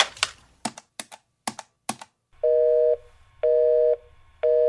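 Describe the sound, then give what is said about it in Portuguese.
A telephone call is dialled with a quick run of sharp key clicks, followed by three steady ringback tone bursts at even intervals. No voice answers the call. “Vou ligar pra Marcela Cunha, que ela sempre tem alguma ideia.”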